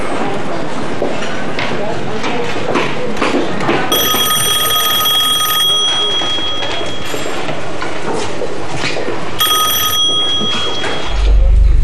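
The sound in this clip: A telephone rings in two short bursts during a festive group dinner with toasts. Bright, clear ringing sits over steady, lively chatter from many people.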